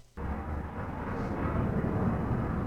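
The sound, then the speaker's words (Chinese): A fighter jet flies over with a steady, broad roar that swells slightly and holds loud to the end. “又有战斗机。”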